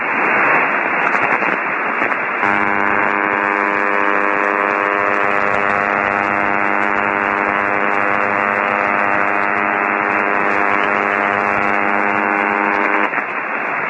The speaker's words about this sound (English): You'll hear the receiver background. Then you will hear this incredible noise that comes up. It's 100 kilohertz wide, and it's a total mystery. Here's the noise.